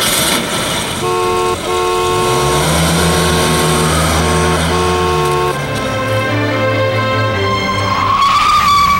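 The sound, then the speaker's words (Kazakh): A car engine roars while its tires squeal, producing a loud, sustained whine with steady tonal layers. The pitch climbs sharply near the end. “Йоқ, сен тормызға басма, газға бас, алкаш!”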